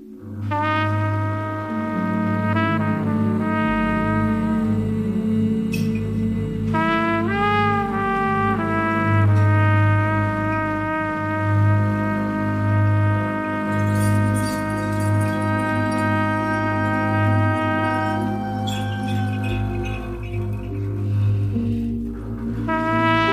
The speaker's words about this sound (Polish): tutaj trąbka gra tylko i wyłącznie ze smyczkami, no i popatrzcie, jak to pięknie brzmi